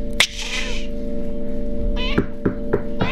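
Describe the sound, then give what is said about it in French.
A cat meows, first with one drawn-out meow and then a few shorter, sharper meows close together. A steady low hum runs underneath the whole time. “Sale chat, sale chat, sale chat.”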